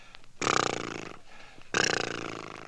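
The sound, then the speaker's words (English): Lip trills made by blowing air through loose, relaxed lips: two loud, buzzy flapping bursts, each lasting over a second, separated by a short pause, with a steady rapid flutter that fades slightly toward the end of each. “Now take a deep breath and blow your lips. Take another deep breath and blow.”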